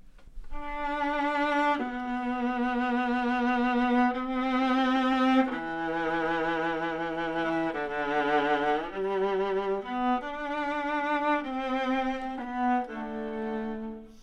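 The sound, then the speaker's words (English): A solo viola plays a slow, lyrical theme from a symphony in sustained bowed notes with warm vibrato. The melody moves gently up and down and is heard alone, without other instruments. “So he was writing a symphony with the viola playing the Harold theme, which sounds like this.”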